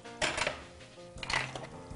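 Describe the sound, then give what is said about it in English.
Crab meat, about half a cup, is added to a cooking pot in two main bursts of clattery scraping and shuffling noise. A quieter pause separates the bursts, and a few faint knocks follow near the end, with no talking. “Go ahead, add your crab. This is about a half a cup.”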